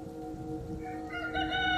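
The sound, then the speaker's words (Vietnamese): A rooster crowing at dawn, one drawn-out crow whose tone climbs toward its end, clear over a quiet background. “Sáng hôm sau, khi gà vừa gáy sáng tiếng đầu tiên”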